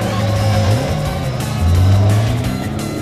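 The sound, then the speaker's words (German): A car engine roars as a car speeds away along a coastal road in a police chase, a loud, sustained revving drone that swells, eases and swells again. “Billings schaltete die Polizeisirene ein und raste hinter ihnen her.”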